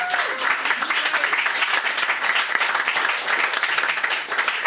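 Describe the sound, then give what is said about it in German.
About twenty people in a small studio applaud a band from Freiburg, brisk continuous clapping at a steady, moderately loud level throughout. “Danke für die Einladung. Ihr dürft applaudieren.”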